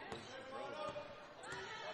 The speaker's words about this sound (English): Keeps the dribble going.